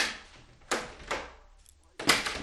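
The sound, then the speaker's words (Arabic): A door is shut quickly and bolted as a thief enters an old woman's room, giving three sharp, loud wooden bangs with rattling tails, the first two close together and the last after a short pause. “ما كادت تراه يدخل حجرتها، حتى أسرعت وأغلقت عليه الباب بالترابيز”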